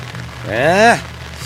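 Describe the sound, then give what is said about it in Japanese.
Heavy rain at an outdoor sports venue makes a steady, loud hiss throughout, with a voice-like tone briefly rising and falling over it midway. “ただあいにくの大雨”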